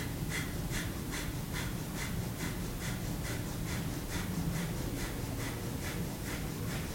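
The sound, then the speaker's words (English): Breath of Fire yoga breathing: rapid, evenly spaced inhales and exhales of equal length, many short breathy puffs in a steady, quick rhythm at moderate loudness, without speech. “So you don't do a series of exhales until you've run out of breath. You inhale as much as you exhale. So if you sit straight, Breath of Fire looks and sounds like, and on a regular speed,”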